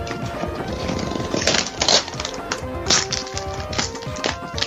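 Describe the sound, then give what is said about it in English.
Paper rustling and packing tape peeling off a carefully wrapped shipping box as it is unpacked, heard as a run of irregular crackling and tearing bursts of varying loudness, with no voices. “Lots of rapping noises and tape coming off.”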